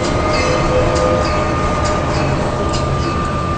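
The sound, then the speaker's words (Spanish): A tourist train runs on rails with a loud, continuous rumble and rattle, a steady high whine running throughout, and a few brief metallic squeals. “Ah, es el tren, este es el tren, ¿no? Ahí lo tiene, ahí lo tiene, este es el tren.”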